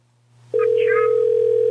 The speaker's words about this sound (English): I'm calling a nail salon there, caller.